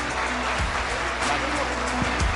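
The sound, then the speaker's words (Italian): Warm applause for a panel speaker: dense, steady clapping that fills the whole clip at a loud, even level. “Un caloroso applauso ad Alessandro Tommasi.”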